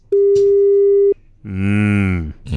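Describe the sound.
A single steady telephone call tone sounds loud and even for about a second and cuts off abruptly. A rich harmonic tone follows after a brief pause.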